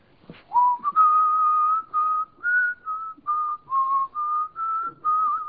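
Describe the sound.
Whistling by one person, starting with a long note that slides up and holds, then a string of about eight short, clear notes at a fairly steady high pitch, alone and without talk.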